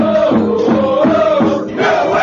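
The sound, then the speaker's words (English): Diehard soccer supporters in the Fort section at Gillette Stadium cheer on the New England Revolution, a loud mass of voices chanting in rhythmic, repeated phrases with a brief dip near the end. “Want to be part of the most raucous experience in New England sports? You'll find it in the Fort, the diehard supporters section at Gillette Stadium that cheer on the New England Revolution.”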